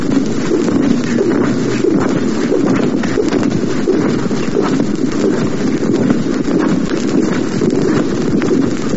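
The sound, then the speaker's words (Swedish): Dracula flying, a sound effect from a record of death and horror effects: a dense, rustling flap that runs loud and unbroken from start to finish, with no voices. “Vi fortsätter att lyssna på uppenbarligen Dracula som flyger.”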